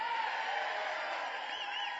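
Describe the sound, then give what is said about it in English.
A large crowd of about 20,000 people cheering at a gathering, a dense, steady roar of many voices that holds at an even level throughout without pause. “Well, there's a lot of you here. In fact, this has got to be about 20,000 people, probably our biggest crowd ever.”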